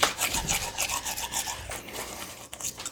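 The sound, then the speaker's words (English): A tongue is brushed and scraped with a toothbrush and Arm & Hammer baking soda toothpaste. Many quick, rasping strokes repeat in an uneven rhythm, loud and close, with no talking over them. “Oh, you really get it? He just scraped his tongue. Ladies and gentlemen, he just brushed the tongue.”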